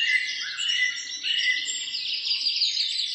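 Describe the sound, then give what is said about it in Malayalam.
Birds call from a rose apple tree, a barbet and a whistling myna among them, in a continuous stream of high, bright chirps and trilling whistles with no voices. “വിളി കേട്ട മറ്റൊരു കുട്രുവൻ കിളി ദൂരെ എവിടെയോ ഇരുന്ന് കുട്രൂ കുട്രൂ കുട്രൂ എന്ന് നീട്ടി വിളിക്കുന്നു. ചാമ്പമരത്തിൽ മഞ്ഞക്കിളികൾക്കൊപ്പം മാടത്തെയുമുണ്ട്. മാടത്തെയും ചൂളം വിളിക്കുന്നുണ്ട്.”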